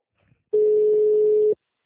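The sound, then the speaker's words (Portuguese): A telephone ringback tone while a call is being placed: a single steady, mid-pitched beep lasting about one second. It is clear and loud against near silence, with a faint click just before it. “Tô ligando.”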